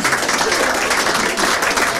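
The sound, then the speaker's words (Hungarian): Audience applause at a humorous monologue, a dense, loud, even patter of many hands clapping that barely dips for the whole stretch. “Megvárom a tapsot, kultúrált ember vagyok.”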